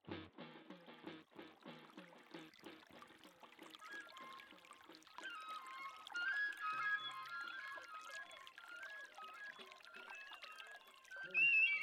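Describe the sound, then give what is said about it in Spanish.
Water pouring and trickling at a lagoon. A steady, lively splashing runs throughout, with many small bright spatters that get louder toward the end. “Y vamos a sentir el sonido del agua.”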